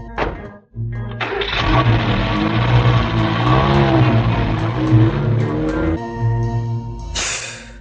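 A car drives off with skidding tires: a brief knock, then a loud sustained engine roar laced with squealing tire tones for about five seconds, ending in a harsher high hiss.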